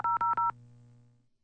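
Telephone keypad tones as a phone number is dialed to call a listener: three quick beeping tones in a row, then a faint low hum that fades out.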